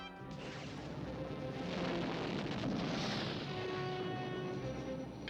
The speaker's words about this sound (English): Good shot, Wheeljack. There's the TIE Fighter noise.